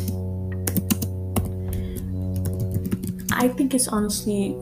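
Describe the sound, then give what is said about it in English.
Typing on a computer keyboard as a search is entered into Google: many irregular key clicks over steady background tones, growing busier and louder near the end. “And if I type it on Google, it will give me an answer.”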